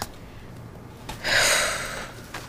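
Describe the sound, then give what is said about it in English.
Slow breathing, in through the nose and out through the mouth, by a man in pain with a broken leg: quiet breath sounds lead into one long, loud, airy exhale that swells and then fades. “Breathe in through your nose, out through your mouth. Slowly.”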